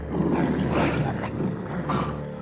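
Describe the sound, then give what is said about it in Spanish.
Fierce tigers roar in a deep, raspy, sustained growl that swells twice, loud and alone. “En todas las otras hay tigres feroces.”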